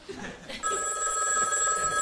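A household telephone bell starts ringing after a moment of quieter sound and then rings on steadily and loudly with a bright, metallic trill.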